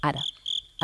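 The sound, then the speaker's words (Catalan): Cricket chirping, made by rubbing its forewings together: a few short, high, shrill chirp bursts that sit between two stretches of people talking. “el so que escolteu del grill... es produeix quan rasquen, diguéssim, les seves les ales, les aletes davanteres.”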